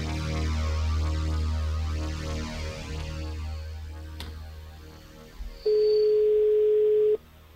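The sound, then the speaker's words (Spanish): Telephone tones as a call is dialed: a long, patterned electronic tone sequence, then a sharp click, then one steady ring tone lasting about a second and a half before cutting off. “Vamos y daremos suerte. Estamos marcando.”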